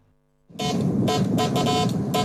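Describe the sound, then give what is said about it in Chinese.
Telegraph beeping from a restored 1970s telegraph control box on a home balcony. Short, buzzy tones pulse on and off irregularly over a loud, noisy hiss. “一大早，杨建明家的阳台上传来了电报的滴滴声。这是一台70年代的发报控制箱。”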